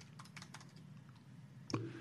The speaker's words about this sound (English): I cannot type.